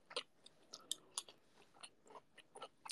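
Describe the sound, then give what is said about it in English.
Chewing and biting while eating mango, many soft, moist smacks and small crunchy bites in an uneven rhythm, faint and close, with no talk. “Mango so delicious. Need to eat mango.”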